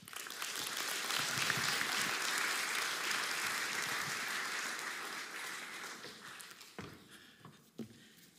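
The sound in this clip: A church audience applauds a guest speaker at a Sunday service, with dense, steady clapping that holds evenly and then thins out near the end into a few scattered claps.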